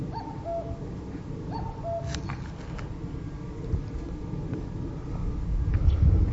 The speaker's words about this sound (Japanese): ここから約20メートル離れた、あ、30メートル離れたお宅のテレビのアンテナにカッコウが止まっています。